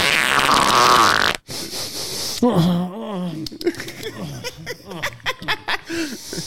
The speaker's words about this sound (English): Where's the fart button?